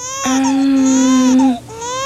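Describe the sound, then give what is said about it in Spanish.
A newborn baby cries loudly in one long, sustained, tonal wail, breaks off briefly, then starts a second cry. “¿Quién es ese bebé que está llorando?”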